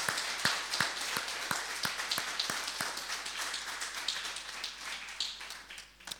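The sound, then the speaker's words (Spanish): Faint applause from a church audience during a Sunday service, with a series of sharper individual claps standing out early on before the clapping thins and fades toward the end. “¿Y qué te parece si con gran gozo le damos un aplauso al Señor?”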